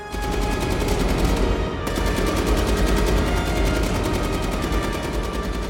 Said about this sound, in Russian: Вперед выходит Скурдж с парой штурмовых винтовок. Он отбивает волну мертвецов, сбрасывает плащ и остается в доспехах, снова стреляет.